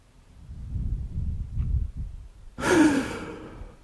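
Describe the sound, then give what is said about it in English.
Deep breathing during a guided breathing exercise: a soft, low breath drawn in gradually, then a sudden louder, airy exhale that tapers off, with no speech. “Take a deep breath in. And then take a breath out as long and as much as you can. Breathe out as long and as deeply as you can. Let's do it again.”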